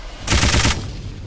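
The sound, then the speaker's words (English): A machine gun fires in a video game in one short, loud burst of rapid, evenly spaced shots, then cuts off, leaving a low hum behind. “Machine gun. I think it moves around, takes more shots to blow up.”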